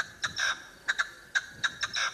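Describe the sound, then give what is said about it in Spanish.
Partridge call played in a game of guessing animal sounds: many short, harsh, scratchy notes in uneven pairs and clusters, fairly faint and alone. “Eso es una perdiz. Es una perdiz.”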